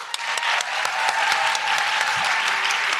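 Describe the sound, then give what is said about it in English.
Steady, loud audience applause for guests at a live show: dense clapping from many hands that keeps a constant level throughout, with no voices rising above it. “a big round of applause”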